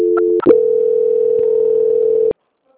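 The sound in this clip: A telephone tone during a call transfer: a steady, single-pitched electronic tone broken briefly by a click near the start, then holding level before cutting off abruptly into silence, with no talking.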